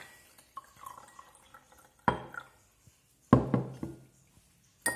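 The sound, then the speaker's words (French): Water being added to sugar in a container: a few short splashing bursts, with small clinks and knocks in between and quiet gaps separating them. “Et pour finir, dernier mélange, le sucre. Je rajoute mon eau.”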